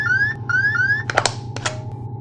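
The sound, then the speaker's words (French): A 1201 program alarm sounds during a spacecraft's landing descent: a few quick, rising electronic chirps repeat over a constant low hum and static, followed by crackling bursts of radio noise. “Alarme programme 1201. Ok, alarme 1201.”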